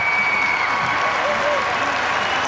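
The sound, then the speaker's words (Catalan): Crowd applause as the Pope comes out onto an esplanade before a cathedral's Nativity façade: steady, dense clapping from a large audience that holds at an even level throughout, with a voice talking over it. “Mira, ja surt el papa i sentim la reacció de tot el públic que ha vingut a viure aquest moment.”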